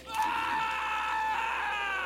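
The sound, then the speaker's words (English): A man screams in one long, strained, high cry that holds loud and steady for about two seconds, alone with no talk. “Colt screamed and tried to push the hand away”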